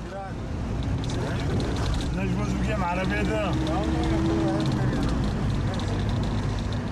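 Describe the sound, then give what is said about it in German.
A car drives across Qamishli: a steady engine rumble and road noise that runs the whole time. People talk over it partway through. “Wir fahren ans andere Ende von Kamischli.”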